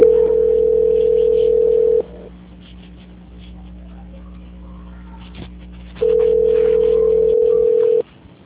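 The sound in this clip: Telephone tones during a call transfer: a loud, steady, unbroken tone, about four seconds of near silence on the line, then the same flat tone again, with no voices.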